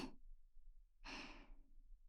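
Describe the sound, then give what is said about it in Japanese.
Soft breath blown into the ear: a short breathy puff at the very start, then after a pause a longer, gentle airy exhale that fades away, quiet and close with no talking. “ママの甘い息ふうふうされるの好き？”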